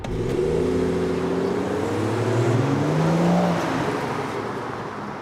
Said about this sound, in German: Jetzt gib endlich Gas.